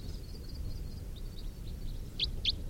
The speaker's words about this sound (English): A couple of wild birds flying over.